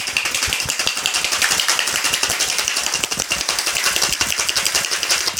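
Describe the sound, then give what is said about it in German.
Cocktail shaker shaken hard with cube ice, vodka and coffee liqueur for an espresso martini: a fast, steady, dense rattle of ice against metal that continues loudly throughout. “Ich habe jetzt hier einfach einen Cocktail Shaker. Und du hast das Eis in Würfeln dann rein. Genau, ich habe hier Würfeleis genommen, kein Crushed Eis. Ja. Jetzt ist es wichtig, dass du halt hart shakest.”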